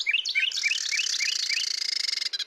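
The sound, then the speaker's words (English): A breeding pair of Carolina wrens sings a duet: the male repeats a short, clear, bright phrase about six times, while the female's rapid, steady trill runs underneath and continues briefly after he stops. “In North America, breeding pairs of Carolina wrens sing duets to strengthen their bond and defend territory. The male repeats a series of clear notes, accompanied by the female's steady trill.”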